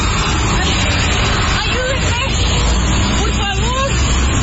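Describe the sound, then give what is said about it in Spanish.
Mexican army trucks pass by as a loud, continuous rumble of heavy road traffic. A woman's raised voice cuts in over the noise a few times. “A camiones del ejército mexicano que estaban pasando en ese momento.”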